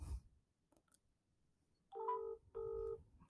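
Two electronic dialing tones sound as a telephone number is dialed, each a steady, bright beep of about half a second, separated by a short gap and preceded by a faint click and low background noise.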